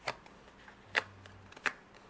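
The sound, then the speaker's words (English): Playing cards are set down on a table in three faint, brief papery slaps spaced apart, with quiet near-silence between them. “We'll set these cards to the side here.”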